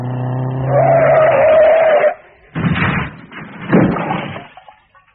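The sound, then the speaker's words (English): Car tires squeal in a long, high skid, then two loud, noisy bursts of a crash follow after a brief gap. “What happened? The crash.”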